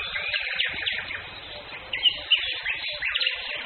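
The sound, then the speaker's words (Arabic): Birds chirp and sing outdoors around the listener, with a few brighter calls standing out over a steady, soft background of birdsong. “ممكن تصمتوا يا جماعة، نسكت 10 ثواني. انا اصوات الطيور اللي هنا شيء انا ما حسيتوش قبل كده في حياتي، عمال سامحهم حواليا كل ثانية.”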